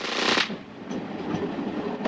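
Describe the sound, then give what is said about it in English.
A train rolls slowly across a bridge in a tense chase scene, producing a steady, broad rumbling wash with faint metallic clatter and a few sharper knocks over it. “Slowly the train crosses the bridge.”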